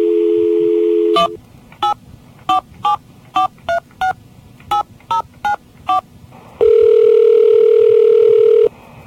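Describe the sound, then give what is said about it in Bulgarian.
Telephone keypad tones as a destination number is entered: a steady dial tone, then many short, evenly spaced dialing beeps of varying pitch, and finally another long steady tone. “Please enter your destination number now.”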